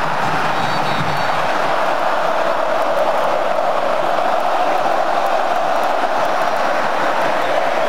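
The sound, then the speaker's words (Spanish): Crowd noise from Colombian football fans in a stadium: a loud, continuous roar of massed voices and cheering that stays steady throughout. “Y ahí está el público, súbale el volumen, Claudio Gutiérrez, al público colombiano”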